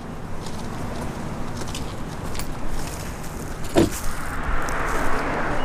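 Steady road rumble and hiss of a car driving down a quiet residential street, a continuous, even wash of tyre and engine noise at moderate level with no voices.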